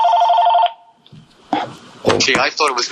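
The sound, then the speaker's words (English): Telephone ringing with one short, warbling electronic trill that lasts under a second, followed by a pause and then people talking. “let me hold on a second. I have to get this phone.”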